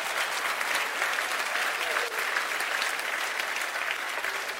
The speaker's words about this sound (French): Est-ce qu'on ne peut pas acclamer le Seigneur pour cette bonne nouvelle ?